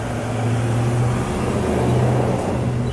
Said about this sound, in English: Pardon the noise of the truck there.